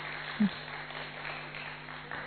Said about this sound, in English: clap for yourself. Clap for all of us, constant bestowers.